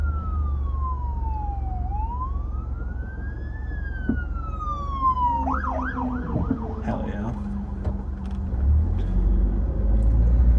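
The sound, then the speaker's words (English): A fire truck siren passes on the road, heard from a moving car. It sweeps down and up in a slow wail, then switches to a run of rapid yelping cycles over steady low road and engine rumble. “Well, this is also a fire truck. Shit. You don't have to stop. There's a median.”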